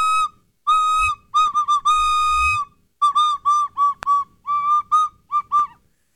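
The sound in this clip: A recorder played live in a studio: clear, breathy whistle-like notes in a quick melody, mixing short bursts with a few longer held tones, loud and alone without talk.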